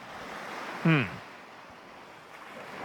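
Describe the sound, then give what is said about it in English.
Ocean waves in the background make a steady, soft rushing wash that stays even throughout, with one brief louder burst of sound near the start. “You can hear the waves in the background.”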